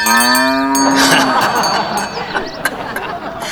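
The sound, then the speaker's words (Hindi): A cow gives one long, loud, low moo lasting over a second, followed by a few seconds of busier, noisier sound with scattered faint clicks. “आ, आप तो अपनी गाय साथ लेकर आ गए जी महाराज”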